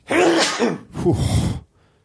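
A man sneezes in two loud, breathy bursts: a long first burst, a short pause, then a second burst that cuts off sharply into silence.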